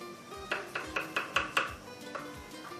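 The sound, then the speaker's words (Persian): A knife chops mushrooms, a quick series of soft, crisp cuts at a steady pace, quiet and alone. “کارچ رو خورد میکنم.”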